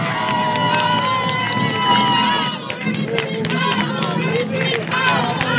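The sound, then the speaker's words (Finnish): Audience applause and cheering at a bowling alley: a steady wash of dense clapping mixed with shouts and whoops from a large crowd, loud and sustained throughout. “Me saatiin hienot aplodit. Voisiko saada uudet, kun nyt ollaan radiolähetyksessä?”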